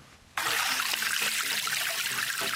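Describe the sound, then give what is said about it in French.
Water runs from a developed spring in Cameroon where children collect it, a bright, steady splashing trickle that starts abruptly and continues evenly, with no voices. “L'eau qui coule de source ici est le seul point d'approvisionnement pour ces petits-enfants dont l'âge varie entre 7 et 9 ans.”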